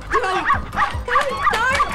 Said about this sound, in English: The dog humps a stool.